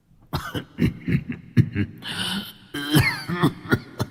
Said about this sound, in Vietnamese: Ông cụ vừa xuất hiện liền ho khổ khổ.